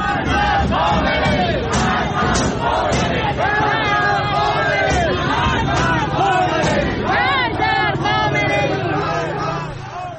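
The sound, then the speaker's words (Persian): A protest crowd gathers in Tehranpars, Tehran, amid a heavy security presence, chanting and shouting loudly and continuously in a dense roar of many voices, captured on video. “ویدیوهای مختلفی منتشر شد که معترضان تونستند به همدیگه بپیوندن و تجمعات اعتراضی رو شکل بدن در حضور گسترده ماموران امنیتی. صدای یک ویدیو رو از تهران پارس میتونیم الان بشنویم.”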